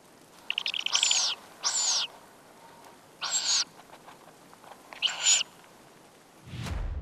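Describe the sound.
Two-week-old tawny owlets call from inside a nest box, giving four harsh, hissing screech bursts separated by short pauses.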